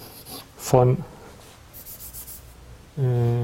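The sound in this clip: Writing strokes as a formula about projections and the Moore-Penrose inverse is written out in a mathematics lecture: soft, scratchy rubbing strokes in a short run between stretches of speech.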